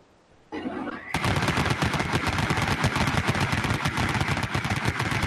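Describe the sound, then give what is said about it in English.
A Vulcan rotary machine gun sound effect played during a tabletop game: a brief rising whir as the barrels spin up, then a loud, dense, unbroken roar of rapid fire lasting several seconds. “that's a nice, crisp Vulcan machine gun sound effect”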